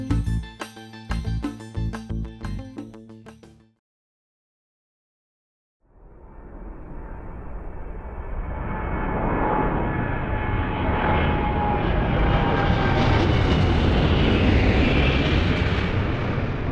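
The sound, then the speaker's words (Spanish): An airplane landing: after a few seconds of plucked musical notes and a brief silence, a deep engine roar swells up and then holds loud and steady, with whining tones riding over the rumble. “Un avión aterriza.”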